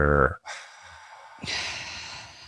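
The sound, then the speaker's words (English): A deep breath drawn in through the nose, a soft, airy hiss lasting about a second, following a short burst of speech. “just do an inhale through the nose and try to direct that breath into your lower ribs. Deep breath in.”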